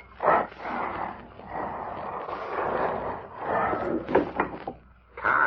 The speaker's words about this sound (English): Carl, look, the wall has opened.